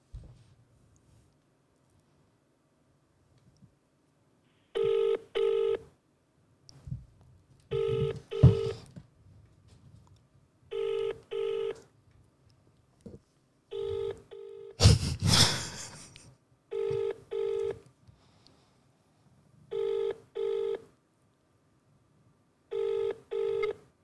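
A phone call ringing out unanswered to voicemail: repeated double-pulse ringback tones in an even, steady rhythm, with a louder noisy burst partway through and faint rustling between the rings.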